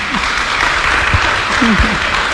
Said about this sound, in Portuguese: Palmas para o Padre Gabriel, né?